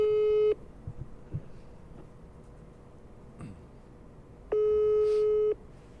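A telephone busy signal sounds while a call is being placed. Two steady mid-pitched tone pulses are separated by a long quiet gap with faint background noise.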